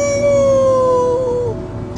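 A dog howls like a wolf in one long, sustained note that holds a steady pitch, wavers slightly and dips before breaking off at the end.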